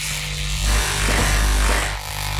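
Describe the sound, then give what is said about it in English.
Electric clippers shave hair from a head, a loud, steady mechanical buzz that swells and dips slightly as the blades move through the hair. “And I'm gonna shave my head. Just hair.”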